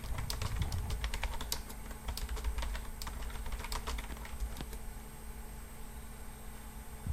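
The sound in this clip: Typing on a computer keyboard: many quick, faint key clicks patter in irregular bursts, busier at first and thinning toward the end over a low steady hiss.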